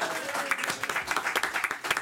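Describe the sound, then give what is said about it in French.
A quiz game audience applauds a contestant with steady, dense clapping, punctuated by a few sharper bursts throughout. “On applaudit Air Force One.”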